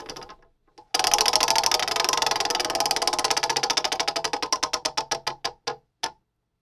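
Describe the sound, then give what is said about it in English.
A spinning prize wheel ticks in a fast, even stream of sharp clicks that gradually slow and spread apart into a few last isolated ticks before it stops, preceded by a couple of faint clicks. “have you dusted off that wheel so we can spin it? I've dusted the wheel off. All right, let's do it.”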